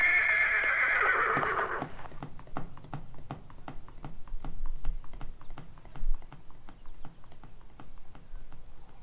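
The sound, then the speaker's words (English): A mare gives a loud, shrill whinny, then her hooves clatter in a rapid run of many clip-clop beats that continue steadily after the neigh fades. “Dismount and send your mare back to your compadres.”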